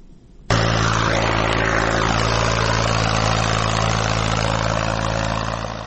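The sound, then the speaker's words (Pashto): Tractor engines drone as they work farm fields in Nad Ali district, Helmand, during ploughing for the summer crop. A loud, steady, low harmonic hum starts abruptly after half a second and runs on, easing slightly at the end. “لمړی غږ هم د ماشینونو غږ ده.”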